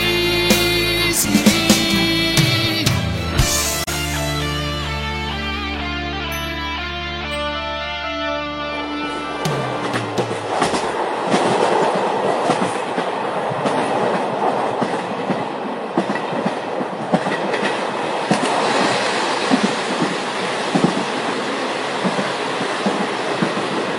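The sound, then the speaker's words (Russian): Runaway diesel locomotive moving on rails: after an opening stretch of sustained droning tones, a loud, continuous rolling rumble with clattering wheel beats takes over and keeps going. “На вас движется неуправляемый тепловоз. Повторяю, на вас движется неуправляемый тепловоз.”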